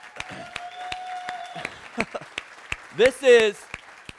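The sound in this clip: An audience in church claps for a new student pastor arriving on his first Sunday, a few scattered, sharp hand claps heard under voices talking, along with a sustained tone in the first half.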